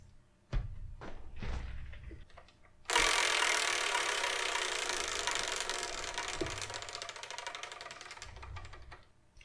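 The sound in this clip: A prize wheel spun for a game gives a loud, rapid stream of rattling clicks. It starts abruptly after a few low knocks, then gradually fades over several seconds.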